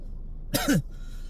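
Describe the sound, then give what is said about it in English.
A man coughs once, a short harsh burst with a throaty, voiced tail, loud against an otherwise quiet background. “I'm coughing, bro.”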